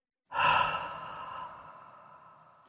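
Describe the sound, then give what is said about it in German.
A deep exhale through the mouth during a cacao meditation, one long breathy sigh that opens strongly and slowly fades away, soft and on its own. “Atme tief durch die Nase ein. Rieche den herben, nussigen Duft des Kakaos und atme noch tiefer durch meinen Mund wieder aus.”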